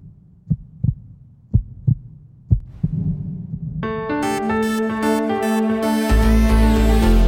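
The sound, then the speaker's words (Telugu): A heartbeat thumps in three paired lub-dub beats, low and muffled, then swelling music rises and fills the rest. “నా గుండె చప్పుడు నాకే వినిపిస్తుంది ఏంటి?”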